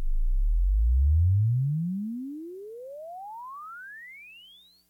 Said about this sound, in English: Okay, we can do this one. This is a sweep from 20 hertz to 5,000 hertz.